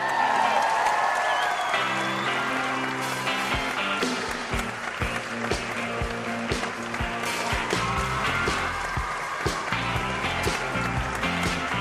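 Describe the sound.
Audience applause welcoming a company's chairman and chief executive officer at a corporate event: steady, loud clapping with scattered sharp claps over music throughout.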